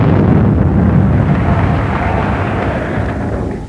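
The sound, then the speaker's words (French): Grenades exploding in a loud, heavy rumbling roar of dense low noise that fills the whole stretch without clear separate bursts, weakening a little toward the end. “et les grenades explosent”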